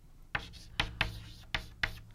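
Handwriting as a math expression is written out by hand: five short, scratchy strokes in an uneven rhythm, faint and on their own.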